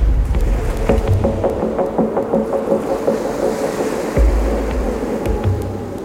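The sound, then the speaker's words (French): A racing sailboat's bow hull slams into swells several metres deep in the Indian Ocean during a solo round-the-world race. A constant roar of surf and wind is broken by a few deep, dull thuds. “Les creux atteignent parfois plusieurs mètres. À chaque passage, la coque avant du voilier tape sur l'eau dans un fracas sourd et violent.”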